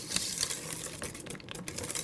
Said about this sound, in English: I'm going to add the Kahlua and heavy cream to the mixture, but I'm gonna whisk it by hand.